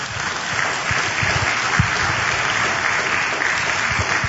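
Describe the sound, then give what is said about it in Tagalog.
Congregation applauding in a church: dense, even clapping that holds at a steady level for the whole stretch, with no voices standing out. “Pwede pong palakpakan natin ang Panginoon?”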